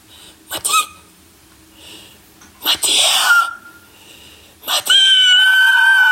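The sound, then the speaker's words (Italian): A person screams three times: a short sharp cry, then a longer wail, then a final loud scream held steadily to the end, with brief quiet gaps between them. “E io lo chiamo. Urlo.”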